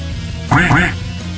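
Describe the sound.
A duck quacks twice in quick succession, in loud, nasal, buzzing bursts over a steady low hum.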